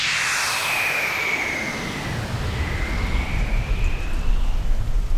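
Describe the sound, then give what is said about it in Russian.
Heavy rain pours in a steady, dense hiss during a storm, falling on a fire set by a lightning strike on a tree. The roar stays loud throughout, with low rumbling weight building slightly toward the end. “Но дождь очень сильный, и вода тушит огонь.”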